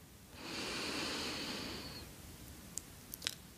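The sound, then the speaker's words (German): A slow, deep breath drawn in through the nose during a guided meditation: a soft, steady airy hiss lasting about a second and a half, followed by a few faint small clicks. “Atme einmal tief durch deine Nase ein.”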